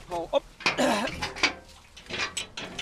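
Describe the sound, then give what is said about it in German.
Lid being opened on the drain structure of a carp pond: a handful of clanks, rattles and scraping knocks in irregular bursts, moderately loud and separated by short gaps. “Martin Oberle jedenfalls klettert auf den Mönch. Ist meistens ein Deckel drauf, damit keiner Unfug treiben kann. Ich versuche mal ihn zu öffnen.”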